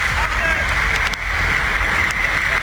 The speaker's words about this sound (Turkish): Çok yoğun dere taşıyor. Gördüğünüz gibi bu araba beline kadar. Sağanak nedeniyle Arnavutköy'de bulunan Ali Bey Deresi yola taştı.